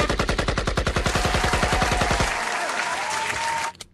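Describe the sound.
Rapid automatic gunfire used as a sound effect: a fast, even stream of many loud shots lasting about two seconds, then a dense, ringing tail that holds steady before cutting off abruptly.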